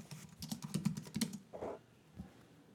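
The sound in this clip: Rapid typing on a computer keyboard while entering a game search, a quick run of many crisp clicking keystrokes followed by a couple of softer, isolated taps.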